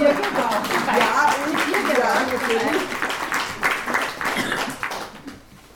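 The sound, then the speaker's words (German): Applause from an audience thanking a volunteer at a talk: dense, steady clapping mixed with voices, holding level and then fading away in the last half second. “Extra Applaus für die Ilse.”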